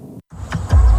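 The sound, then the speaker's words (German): A fully electric BMW car driving: a brief smooth whir, cut by a short gap, then swells into a louder, steady low rumble. “So klingt Fahrfreude. Mit den vollelektrischen BMW-Modellen genießen Sie grenzenlose Fahrfreude, ganz ohne Benzinkosten.”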